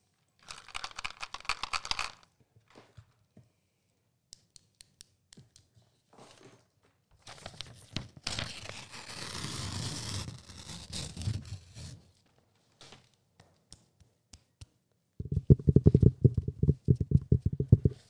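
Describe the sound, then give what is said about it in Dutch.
ASMR trigger sounds: a burst of crisp crackling, scattered soft taps, a longer rustling crinkle, then a quick run of low, knocking clicks at the end, all without talk. “Oké, we gaan over naar ASMR. Dat is ook helemaal terug. ASMR is dit.”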